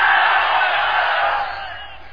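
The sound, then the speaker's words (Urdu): A crowd at a religious gathering roars enthusiastic religious slogans in unison, as one loud, sustained mass of voices that eases off toward the end. “تشریف لا رہے ہیں پرجوش نعروں کے اندر، نعرہ تکبیر،”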